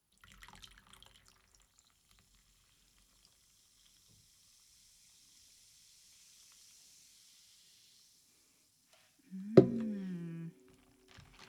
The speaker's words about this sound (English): I'm going to add some mango sparkling water